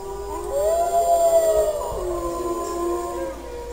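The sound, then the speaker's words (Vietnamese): A man and a wolf howl together in two long, clear howls that overlap and waver in pitch, loud and sustained for several seconds with no talk. “Một người, một sói. Hai tiếng hú trong vắt kéo dài, tựa hai con rồng cột vào nhau, bay vút lên không, vang động khắp cả vương quốc.”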